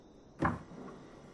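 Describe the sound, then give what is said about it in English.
A door is slowly closed, ending in one soft thud followed by a short, low rumbling decay that fades away. “He slowly closes their door.”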